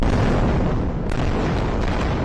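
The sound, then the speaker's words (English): Explosions over Gaza at night during military strikes, heard as a continuous, loud, deep rumbling roar that barely lets up, easing for a moment near the middle before surging again. “There were explosions across Gaza's nightline sky Monday evening.”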